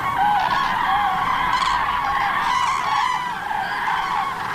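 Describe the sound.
Geese honking as young birds land in a farm field escorted by their grey-brown parents: repeated nasal, wavering calls overlap continuously over a noisy background, with several voices calling at once.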